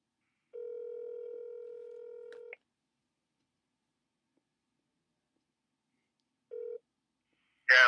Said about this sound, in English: I'll give him a call.